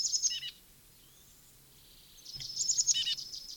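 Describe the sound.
Junco or titmouse trill: two short bursts of high, thin, rapid chirping notes, the first at the start and the second after a quiet gap, both fairly faint.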